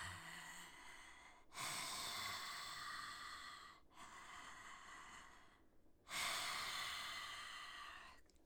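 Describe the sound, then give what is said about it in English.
Deep breathing in and out through the mouth with the back of the throat tightened gives a soft, rasping rush of air. A few long breaths of about two seconds each follow one another slowly, with no talk. “I call it Darth Vader breathing. So we're going to inhale through the mouth and exhale through the mouth, and you're gonna tighten the back of your throat a little bit and just go.”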